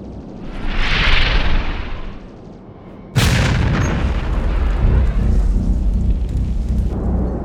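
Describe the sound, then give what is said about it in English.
An explosion as a torpedo strikes a missile in a battle: a hissing whoosh swells and fades, then a sudden loud blast at about three seconds gives way to a long, dense, rumbling roar. “A Class X Kogan torpedo! It's going after our missile leader!”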